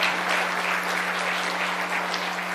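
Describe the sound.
A morning church audience applauds to welcome a speaker up front, a dense, steady clapping that holds an even loudness from start to finish.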